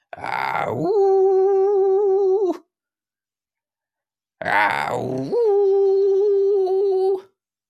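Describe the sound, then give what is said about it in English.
A person imitates a wolf howling at the sky, as if acting like a werewolf: two long, loud howls separated by a pause, each rising quickly at the start, then holding a wavering, tuneful tone before cutting off. “I am definitely more beast than man. I'm looking up at the sky and I'm just howling.”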